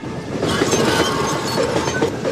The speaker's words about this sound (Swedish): För att kunna komma undan med pengarna kopplade skurkarna ifrån vagnen från resten av tåget.